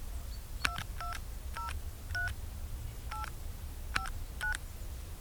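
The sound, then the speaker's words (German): A telephone being dialed for a collect call: a series of short touch-tone beeps at an uneven pace, clear over a faint low background hum. “Kann ich dein Telefon im Rhodes benutzen? Selbstverständlich, wenn du es bitte als R-Gespräch machst.”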